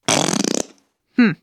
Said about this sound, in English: Maybe you thought that sound was a fart, but it's actually a whoopee cushion.